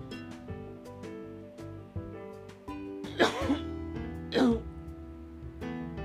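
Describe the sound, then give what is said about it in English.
Two harsh, brief coughs burst out over a steady musical background, part of a violent coughing attack from a person with sudden allergies; the coughs are loud and about a second apart. “Sorry, a pretty violent cough attack, and there's more coming. Bear with me if you can.”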